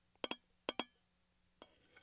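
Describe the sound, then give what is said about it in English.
ASMR tapping with crisp, bright clinks: two quick double taps, then a softer single tap and a faint last one, each sharp and short against a very quiet background. “Some more tapping.”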